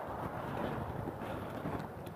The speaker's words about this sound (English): It's still blowing a gale, but at least it stopped raining.